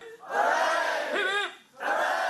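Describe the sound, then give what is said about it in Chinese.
Students at the University of Hong Kong cheer and shout as they watch a Shenzhou crewed spacecraft lift off. Two loud bursts of massed cheering are separated by a brief dip. “跟随着飞船顺利升空，现场随即传出欢呼和掌声。”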